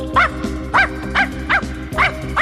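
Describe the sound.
A big bandaged dog barks about six times in a steady, repeated rhythm. Each bark is loud and sharp over a low, continuous musical hum.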